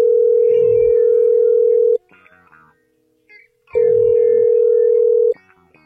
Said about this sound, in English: Matter of fact, call somebody right now